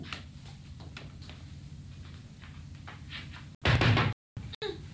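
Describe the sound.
Hard knocking on a door: repeated thumps beneath people talking, then a loud burst of banging, a short silence and more noise.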